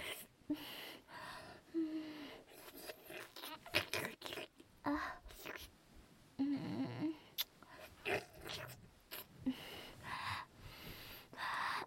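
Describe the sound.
Crunchy chewing on a hard food, many irregular crackling bites and crunches that stay fairly faint and come in uneven bursts.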